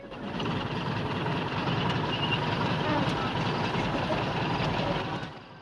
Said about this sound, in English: A bus pulls up on a country dirt road by some houses, and three black women get off it.